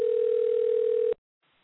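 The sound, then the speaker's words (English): A telephone dial tone after a call is placed: one steady, unbroken mid-pitched hum holds loud and even for about a second, then cuts off abruptly into near silence. “I think I just made a phone call.”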